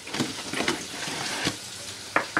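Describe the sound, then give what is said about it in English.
Fry bread dough of flour, baking powder and Crisco sizzling in hot oil in a kitchen, a steady crackling hiss broken by a few sharper pops. “She has a friend in the kitchen, teaching her how to make fry bread, flour, baking powder, and Crisco.”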